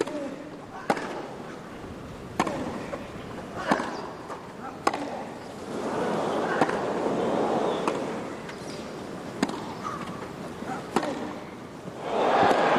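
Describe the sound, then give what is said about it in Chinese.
Crisp tennis ball strikes in a Wimbledon rally that includes Federer's topspin forehand: several sharp, separate pops about one to one and a half seconds apart, over a low background murmur. “费里这个正手的提拉真漂亮，面对着一个低弹跳的一个”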